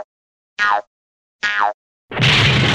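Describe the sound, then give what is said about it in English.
Cartoon boing of a lively little rabbit bouncing: two springy, twangy boings whose pitch slides downward, separated by silence, then a louder noisy burst to finish. “When you hear the lively little rabbit bounce like this.”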